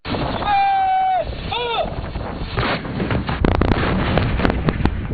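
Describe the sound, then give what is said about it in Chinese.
Artillery firing at a site more than 4,000 metres up on a high plateau: two brief electronic signal tones, then a run of sharp booms and cracks through the latter half. “抵达海拔4000多米的预定地域后，官兵们按战斗队形散开，迅速完成前沿侦察、弹药装填和诸源计算，并展开首轮火力打击。”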